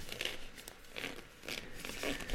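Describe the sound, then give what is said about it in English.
Gloves being pulled on before handling trading cards produce soft crinkling rustles in a few separate bursts, fairly quiet and with no talking. “So I am putting on the gloves so that we can handle these cards with care.”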